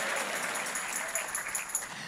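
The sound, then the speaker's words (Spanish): Applause from a church audience during a sermon: a steady, fairly faint wash of clapping with no distinct individual claps, holding an even level for the whole stretch. “Si ese es el aplauso, dáselo mejor al Señor.”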